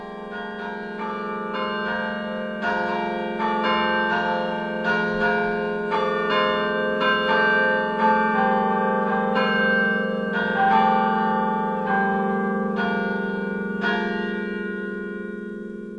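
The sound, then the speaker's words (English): A carillon in Switzerland's Rhone Valley rings a simple, unhurried melody of clear struck bell notes, one after another over a lingering low hum of resonance, with no voices. “The simple melody of a carillon in the Rhone Valley, token of the musical pleasures of a people, symbol of a cultural heritage in Switzerland, reaching back over more than 1,000 years.”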